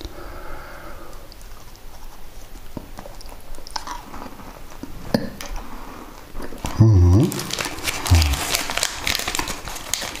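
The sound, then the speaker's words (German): Chewing a chocolate cookie: irregular crunchy bites and soft mastication, with a louder burst of crunching toward the end. “Da ist sogar Schokolade drin. Genau das brauche ich jetzt am Morgen.”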